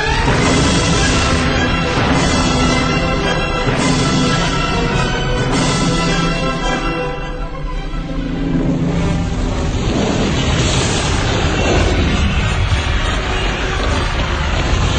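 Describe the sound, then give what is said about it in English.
Space-fleet weapons fire and explosions in a video game, with warships opening up on enemy vessels: a loud, dense, continuous roaring barrage with heavier bursts breaking through it several times. “All vessels, fire at will. Oh, and destroy the Admiral's ship last.”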